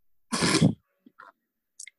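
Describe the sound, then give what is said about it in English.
A single short, loud snort bursts out, then a few faint, brief mouth and breath noises follow in near silence. “See, that was a snort because what the fuck?”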